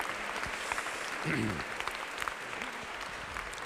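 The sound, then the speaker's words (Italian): Applause from a packed church audience on a Saturday evening, after young children performed a song. The clapping is dense and steady throughout, with a brief voice rising above it midway. “per cui il primo applauso è per voi, perché avete accettato questa sfida che non era facile, devo dire, e l'avete vinta.”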